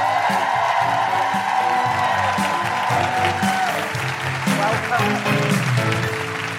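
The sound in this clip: An audience at a live show in Canberra applauds and whoops in welcome for a guest, with loud sustained clapping and high cheering voices over it throughout.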